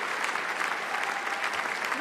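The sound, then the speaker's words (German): Audience applause for a singer at a concert: a steady, dense wash of clapping hands that fills the whole clip at an even level, with no single claps standing out. “Was für ein Applaus für eine noch recht unbekannte Sängerin.”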